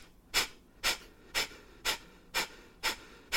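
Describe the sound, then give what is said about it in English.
Forceful rhythmic breathing from a breath-work exercise: sharp, airy bursts of breath in an even, steady series at roughly two per second, each clearly separated by a short quiet gap, with no talk. “if you don't like breath work, just skip ahead in like 30 seconds. Yeah. But if it sounds like this, this is how you know you're doing it right.”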